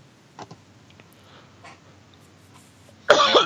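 A single loud, harsh cough or throat clearing bursts out near the end, after a few faint clicks and near silence.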